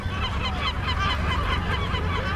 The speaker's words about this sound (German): Die ersten Spaziergänger tauchen auf und werfen den eifrigen Vögeln Brotstücke zu.